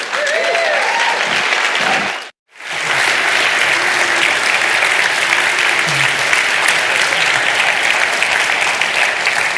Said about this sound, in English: what I want to ask you to do is stand up with me, and let's really give it up for Dave King